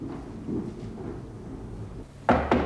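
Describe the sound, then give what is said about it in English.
Two sharp knocks on a ward office door land close together near the end, following a stretch of low, rumbling background noise with no talk. “She knocks on the office door of Sister Bridget.”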